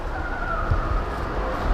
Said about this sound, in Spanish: Agárrate, que ponemos en marcha la máquina del tiempo.